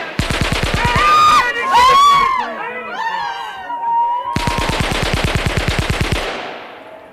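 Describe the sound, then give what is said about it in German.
Submachine gun fire shot over the heads of a crowd: two long bursts of rapid, evenly spaced cracks, with shouting voices in the pause between them. “Sie haben über die Köpfe geschossen. Du kannst wieder hochkommen. Woher weißt du das? Wenn sie mit zwei Maschinenpistolen aus einer Entfernung von 20 Yards in die Menge geschossen hätten”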